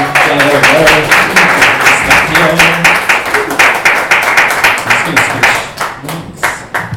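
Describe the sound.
Audience applause welcoming two hosts onto a stage: dense, loud clapping that runs steadily throughout and thins slightly near the end, with some voices mixed in.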